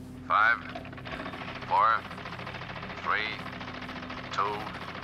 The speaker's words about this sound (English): And another little rocket launch here to start things off.